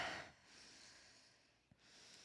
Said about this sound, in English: Okay, everyone, take a deep breath.